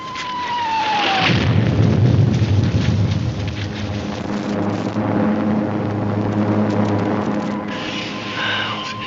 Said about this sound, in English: Sir, planes, American bombers, I think. There's a railroad near here, they're probably after it.